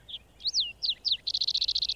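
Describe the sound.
A bird chirps in a forest, giving four high, sweeping chirps and then a rapid, even trill, faint and heard alone.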